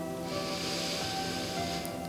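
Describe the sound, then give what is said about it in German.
A deep breath drawn in through the nose during a relaxation breathing exercise: a steady, airy hiss of inhaled air that holds evenly for about two seconds. “Und dann beginne ich hier ein paar Mal tief ein- und auszuatmen. Über die Nase tief ein”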